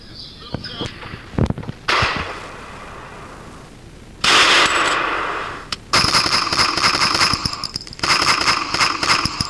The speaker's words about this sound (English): Oh, you shot me, Fat Albert.